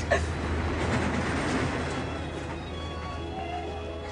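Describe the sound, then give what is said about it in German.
A roller coaster ride rumbles and rattles along its track in a continuous, loud, steady clatter that eases off slightly toward the end. “Also ich will jetzt mit der Achterbahn fahren.”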